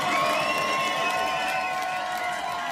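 An audience cheers and makes noise at a live show, with a steady crowd roar, scattered whoops and high shouts carrying loudly throughout.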